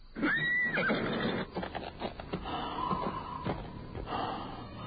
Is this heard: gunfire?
no